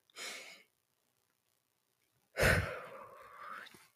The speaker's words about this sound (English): let's take a deep breath.